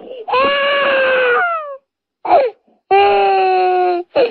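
Crying and wailing, drawn-out sobbing cries: two long, loud wailing notes, the first sliding downward at its end, with a short sob between them and a brief final cry.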